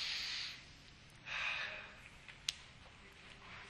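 People drawing a deep breath together, heard as an airy hissing inhale followed by a fuller, breathy exhale. Both are fairly faint, and a brief sharp tick comes afterward.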